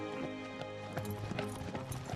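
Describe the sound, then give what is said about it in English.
A brown horse cantering with riders on its back, approaching an icy palace: many quick, uneven hoof strikes in a rolling clip-clop rhythm, fairly faint over a steady tonal background. “Later, she canters on Prince Albrecht's horse, with the two men sharing Hilarion's.”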